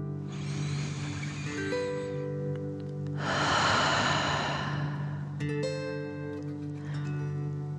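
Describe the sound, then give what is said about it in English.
Deep breathing in and out during a guided breathing exercise: long, airy breaths, one louder in the middle, over a steady sustained musical drone. “Again, deep breath in and out.”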